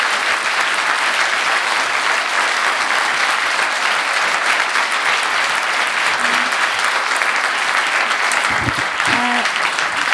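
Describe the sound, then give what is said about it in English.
An audience applauds at the end of a lecture's question session with dense, continuous clapping that stays loud and even throughout, without pauses. “Give a warm round of applause to Hong Fu”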